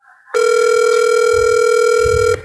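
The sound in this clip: Ringback tone of an unanswered telephone call: a single steady electronic tone held loud and unbroken for about two seconds, then it cuts off, with faint low rumble beneath.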